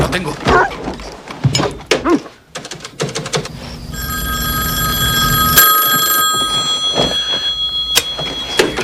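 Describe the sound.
A telephone bell rings late at night, a steady, bright, sustained ringing that starts after a few seconds of other clattering noises and carries on loudly to the end.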